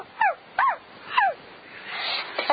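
A dog barks three short, sharp times at even spacing, each bark falling in pitch, followed by a softer, noisy stretch.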